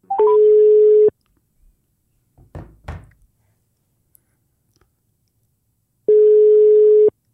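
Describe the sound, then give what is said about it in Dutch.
A phone line tone plays while a dropped call is redialed: two long, steady, mid-pitched tones about five seconds apart. A short rising beep comes before the first, and faint knocks and thuds fall in the quiet gap. “Hij zit nog niet in Qatar, maar we bellen hem even opnieuw anders, hè?”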